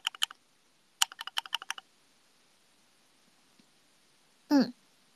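Keystrokes on a thocky mechanical computer keyboard: a short burst of about four clicks, then a faster run of about seven. Each keystroke is crisp and fairly loud, with a pause between the two bursts.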